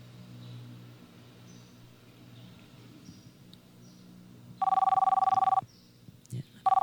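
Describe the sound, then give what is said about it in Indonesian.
A telephone rings with an incoming call. One loud electronic ring lasts about a second, and a second ring starts just at the end. A faint voice and low murmur come before the rings. “Mungkin ada telepon dulu yang masuk ini,”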